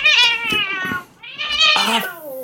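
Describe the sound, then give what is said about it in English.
A cat meows right beside a microphone: two loud, drawn-out meows, the second one bending upward in pitch. “Sorry, my cat is sitting right by the microphone.”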